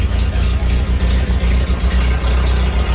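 An old car engine, a garage find, idles with a steady, low, rhythmic throb of regular pulses.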